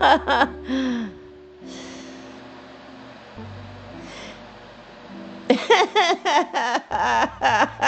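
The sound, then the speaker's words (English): A person takes deep breaths with audible gasping inhales before a spiritual channeling session; soft breathy sounds come first, followed by a burst of rhythmic giggling laughter near the end. “so I can take another deep breath and we're going to channel God. He's already starting. I'm like, let me have another breath, man.”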